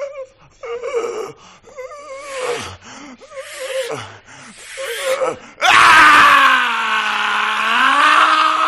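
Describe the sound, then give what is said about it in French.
A man gasps and groans in ragged, uneven bursts with short pauses as his lungs clear, then breaks into a loud, sustained scream that wavers in pitch. “Ça y est, les poumons sont enfin dégagés. Il hurle librement.”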